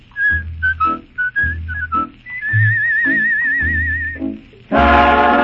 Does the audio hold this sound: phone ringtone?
no